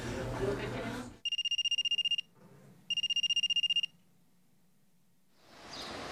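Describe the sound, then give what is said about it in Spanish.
A telephone rings in two bright, electronic trilling bursts separated by a short pause, with other sound before and after the rings. “¡Contesta, Rubí, contesta!”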